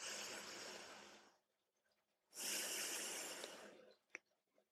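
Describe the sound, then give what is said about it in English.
Slow, deep breathing during a guided prayer: two long, airy hisses of breath separated by a short pause, followed by a faint click near the end. “Inhale to the count of five as you pray.”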